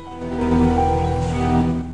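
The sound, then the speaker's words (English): Waves rolling in from a murky grey sea make a steady, broad wash of surf, with low sustained tones running beneath it throughout. “She looks out over the sea. The waves roll in from the murky grey sea.”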